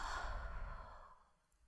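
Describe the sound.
A slow exhale during a breathing exercise: one soft, breathy outbreath, strongest at the start and fading away over under two seconds, with no voices.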